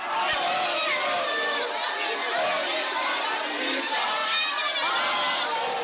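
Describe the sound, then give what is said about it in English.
Crowd of Chadema party supporters outside a corruption court in Tanzania, a dense mass of voices shouting, cheering and calling out together, loud and sustained throughout with no break. “Supporters of Mbowe's Chadema party and others who were following the case cheered and sang solidarity songs outside the High Court's Division of Corruption and Economic Sabotage.”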